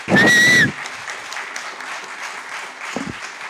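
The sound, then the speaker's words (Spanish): Audience applause at a gathering honouring contributors to a comics magazine. A loud, shrill whistle opens it, then steady clapping follows, with a couple of brief thumps near the end. “Bien, fuerte el aplauso para Matías.”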